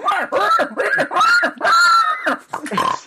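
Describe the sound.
A voice imitating a boar's grunts for a character in boar form, giving a string of rough, voiced bursts in quick succession, some with a snickering, laugh-like edge.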